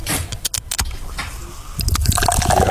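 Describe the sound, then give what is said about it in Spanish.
Cold Coca-Cola poured into a medium-size glass packed with ice: a loud, splashy, bubbly pour with a few sharp crackling bursts early on and a fuller fizzing stream toward the end. “cuando usted está echando esa Coca-Cola en el vasito”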